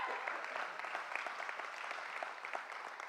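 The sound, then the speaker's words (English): A church audience gives a round of applause for guests during a Sunday service. The clapping is soft but continuous, a busy patter of many hands at a fairly even level. “Come on, church, give it up for our guests.”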